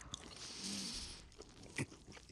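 A sandwich is bitten into with a couple of crisp crunches, and soft, moist chewing follows between them. All of it is faint and close.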